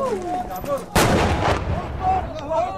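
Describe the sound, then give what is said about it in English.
An artillery shell lands near the position where rebels fired a homemade big gun mounted on a pickup truck. A single sudden heavy boom hits about a second in, followed by a rolling, decaying rumble. “And now shells are landing in the position from where they fired that big gun.”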